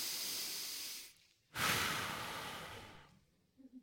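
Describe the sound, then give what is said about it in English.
Two quiet, long breaths taken slowly: a breathy inhale comes first, then after a short pause a stronger, sigh-like exhale that trails off gradually. “So everybody, I just want you to stop and take a deep breath with me.”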